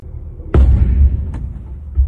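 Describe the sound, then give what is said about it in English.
A detonation goes off during an armed attack on a cash transport vehicle: one sharp, heavy boom with a deep low rumble, then a smaller crack and a lingering throb. “Detonation.”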